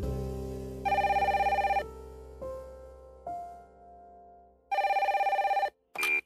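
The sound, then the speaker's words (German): An electronic telephone ringtone sounds in two long trilling bursts separated by softer tonal chimes, then ends with a short final burst. “Er bekam einen Anruf von einer anonymen Nummer. Er zögerte einen Augenblick, dann nahm er den Anruf an.”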